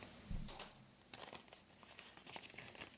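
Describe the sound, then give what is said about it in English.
Paper rustling as letters are handled, with faint, soft crinkles and scattered crackly bursts continuing throughout at low volume. “we can hear the rustling of the paper in the background.”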